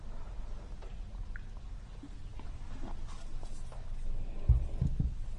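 Writing on a board during a maths lecture gives scratchy, irregular strokes and soft taps over a steady background noise, with a louder thump near the end.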